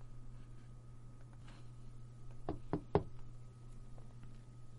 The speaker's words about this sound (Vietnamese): phía ngoài cửa vang lên tiếng gõ